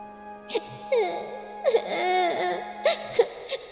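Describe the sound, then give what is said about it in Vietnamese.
A baby cries with mournful, wailing sobs, rising and falling in pitch in a few drawn-out bursts with brief whimpers between them, moderately loud and alone. “đứa bé bên cạnh hai người phụ nữ kia đang khóc, tiếng khóc nghe như ai oán, như đang trách gã.”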